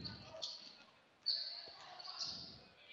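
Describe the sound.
A basketball is dribbled up the backcourt during a game, faint low bouncing thuds under a commentator's talk.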